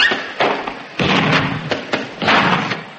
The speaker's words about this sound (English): Pop out and fill up the scuttle with some more uranium. Oh, all right. I'll just chuck this last bit on the fire.